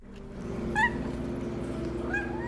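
Cats meowing in a cat cafe in Miami: two short, high meows rising out of a steady low hum, with no talk.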